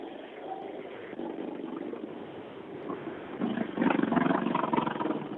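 A struggling engine that is not getting fuel runs with a rough, uneven drone and no steady rhythm, growing louder toward the end with no voices.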